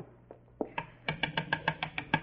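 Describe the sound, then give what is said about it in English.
Knocking on a door: a rapid run of sharp raps, a couple of softer ones first, then a steady, firmer sequence with no voices. “I better go up and knock on the door.”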